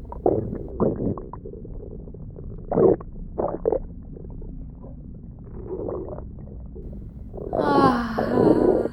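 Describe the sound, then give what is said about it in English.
A giant's stomach rumbling as it digests: deep, bubbly gurgles and low churning groans in several bursts, swelling into a longer, louder groaning rumble at the end. “I'm getting sleepy now. I must have eaten at least 2 dozen bandits. Can you hear them melting away inside me?”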